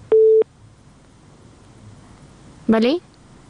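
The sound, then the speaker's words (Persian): A single steady electronic tone, as when a phone-in caller's line is cut off, sounds once, short and loud, and a brief voice follows after a quiet pause. “متاسفانه که است تماس فریبا جان هم قطع شد”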